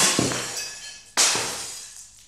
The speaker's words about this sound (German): Das Geräusch kennt man ja, ne? Wieder was kaputt gegangen.